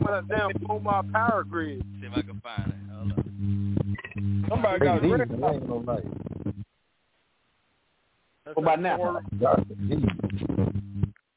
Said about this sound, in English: Somebody on the cordless phone or something.